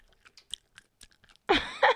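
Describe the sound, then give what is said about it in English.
Chewing of Haribo Squidgelets sweets: a scatter of faint, wet clicks gives way to two loud, close squelching chews near the end, with no talk. “Okay, this is going to be some like ASMR stuff, isn't it? Because we're like eating. Okay, this is the sound of Haribo.”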